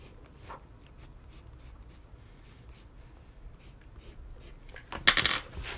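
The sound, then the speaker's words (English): Eraser rubbing over a drawing on paper gives a faint, dry, scratchy friction that runs steadily. Near the end comes a louder, brief burst of scraping. “let me just erase that real quick.”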